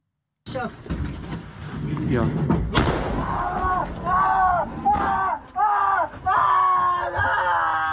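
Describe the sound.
Airstrikes on paramedic teams in the southern Lebanese town of Meifadun: a rumbling blast and a sharp explosion, followed by people shouting and screaming over continuous loud noise.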